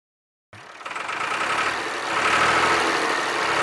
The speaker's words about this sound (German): Ein MF 135, Massey Ferguson, 42 PS mit Frontlader, Baujahr 66.